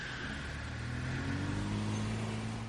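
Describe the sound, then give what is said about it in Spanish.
A car engine hums steadily as the car climbs a level of a parking garage. The drone is low and even, with a slight swell partway through, and no voices are heard. “En un garaje superior, un coche sube una planta.”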